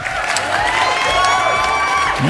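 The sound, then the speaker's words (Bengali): An audience claps and cheers at an afternoon Puja-season gathering, with sustained clapping under high, sliding whoops and shouts throughout. “তাই এই হাততালিটুকু প্রাপ্য”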